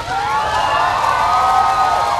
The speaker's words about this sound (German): Als Franziskus ins Auto stieg, jubelten ihm ein paar am Rand platzierte Kinder mit Fähnchen in der Hand zu.